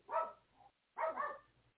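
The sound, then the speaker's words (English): Dogs barking indoors before being sent outside: two muffled, fairly faint barks about a second apart, each a short rough burst with a softer tail, with no voices heard. “Let me get rid of the dogs.”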